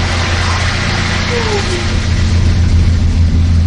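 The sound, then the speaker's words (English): Steady engine drone of a shuttle bus in a canyon, a loud, continuous low rumble that holds evenly from start to finish with no clear breaks. “it's the sound of the shuttle bus resonating against the walls of the canyon.”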